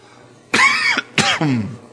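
Coughing from a man during an exuberant church service: two harsh, loud coughs with a short gap between them, the second trailing off in a lower, rough tail.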